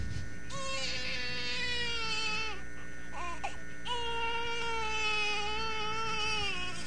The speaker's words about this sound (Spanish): ¡Viejo, viejo! La niña llora mucho, mucho. Hay que llevarla con el doctor.